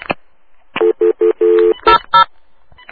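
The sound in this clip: Touch-tone telephone dialing: a run of several short, clear keypad beeps of steady pitch, one held longer than the rest, with brief gaps between them.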